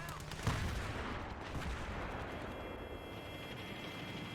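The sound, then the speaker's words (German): Tank cannon fire in a video game: a heavy blast lands near the start and is followed by a long, dense rumble of battle noise. “Lass mich in Ruhe. Panzer, nicht auf mich schießen. Nicht auf mich schießen.”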